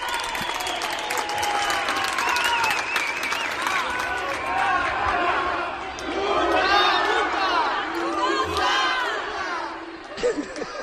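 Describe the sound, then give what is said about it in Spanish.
Residents of apartment blocks chant a single word in unison, loud rhythmic group shouting mixed with clapping and scattered cheers that swell in the middle and ease off toward the end. “empezó a gritar todos los bloques que estaban al unísono, multa, multa.”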